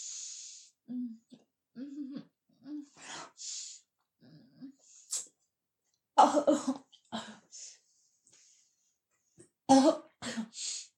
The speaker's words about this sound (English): Making me gag. My eyes tearing up as I look up at you.